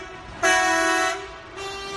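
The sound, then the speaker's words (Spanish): Coach buses sound their horns on city streets during a mass honking across provincial capitals including Madrid, giving two long, loud, steady horn blasts separated by a brief dip. “Miles de autocares han hecho sonar hoy el claxon por las calles de hasta 20 capitales de provincia, entre ellas Madrid.”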